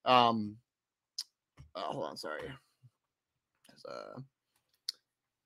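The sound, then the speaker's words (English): Computer mouse clicks as someone steps through XFL award slides: a few sharp, isolated clicks scattered between short stretches of speech. “I got to click through all of this. Hold on one second.”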